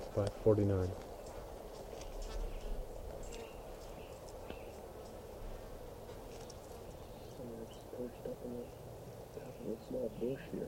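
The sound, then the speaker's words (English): Faint bird calls picked up by a microphone aimed at a bird: a few soft, repeated cooing notes over quiet background noise. “Now pointed at bird”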